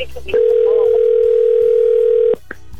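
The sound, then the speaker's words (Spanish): A phone call rings after dialing: a single long, steady mid-pitched ringback tone lasts about two seconds and then cuts off, with faint line noise before and after. “Sí, estaba marcándolo mal. Venga. Ya entró la llamada.”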